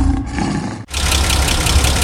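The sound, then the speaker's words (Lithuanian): The engine of a 20-year-old car runs with a rough, steady low rumble that cuts out briefly partway through, then resumes. “Tai 20 metų senumo automobilio garsas.”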